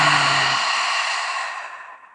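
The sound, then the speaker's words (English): A full, deep exhale during a guided breathing exercise, heard alone as one long, breathy rush of air lasting about two seconds that begins strong and slowly fades away. “And a nice full exhale. Let's clear it out.”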